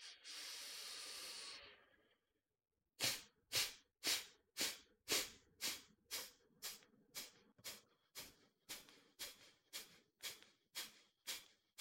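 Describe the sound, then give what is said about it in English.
Deep breaths taken in a guided thirty-breath exercise: one long breathy inhale, then a short silence, followed by many quick, forceful breaths in a steady, even rhythm that gradually soften. “Sit up straight, take a deep breath in, and begin 30 breaths.”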